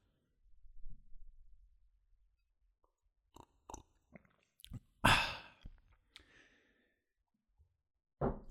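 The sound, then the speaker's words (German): Quiet sipping and swallowing of carrot juice: a few soft gulping clicks, then a loud, breathy exhale, with another short breath near the end. “Aber davor nehme ich noch einen Schluck von meinem Karottensaft.”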